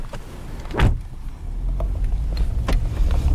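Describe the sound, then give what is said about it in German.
A car sits on a harbour parking lot, about to drive off. A brief whooshing burst gives way to a steady low engine rumble with a few faint clicks. “Jetzt fahren wir zum Eurogate-Terminal, das heißt mitten in den Hafen zum Container-Terminal”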